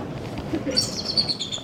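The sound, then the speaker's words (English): A bald eagle calls at a zoo beside an otter exhibit in cold, snowy weather, giving a run of thin, high-pitched chirps that grow stronger partway through, over a low, faint background rumble. “the bald eagle calls us away from the otter exhibit”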